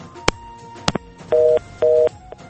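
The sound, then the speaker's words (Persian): A telephone line on a radio call-in show cuts off as the caller's call drops. A couple of sharp clicks are followed by two steady, evenly spaced busy-signal tones. “تماس برادر عزیز ما محمد تنها قطع شد.”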